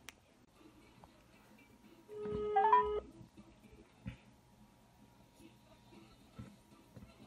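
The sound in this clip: A telephone tone from an outgoing call: one steady mid-pitched tone lasting about a second with a brief higher warble on top, set against faint low background noise.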